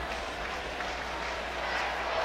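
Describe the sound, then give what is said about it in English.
Steady roar of a baseball crowd at a Milwaukee Brewers game after a diving infield stop, a dense, even wash of cheering and clapping that holds at an unbroken level throughout. “What were you saying about those Brewers fans? Turn the crowd mic down.”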